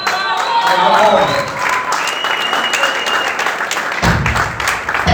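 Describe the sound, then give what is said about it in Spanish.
Audience applause fills a live metal festival concert, with dense steady clapping and crowd noise running loudly throughout. A low rumble joins in near the end. “Un aplauso para Cotorra, loco.”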